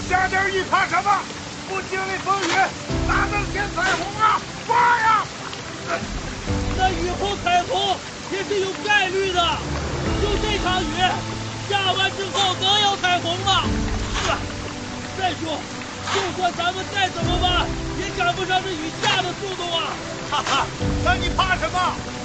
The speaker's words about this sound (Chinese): 不是，这雨也太大了吧？